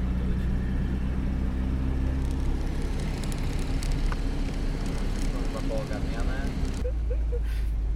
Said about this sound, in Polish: No i jedziemy. Pam, pam. No, jedyne 20 minut na odpalanie.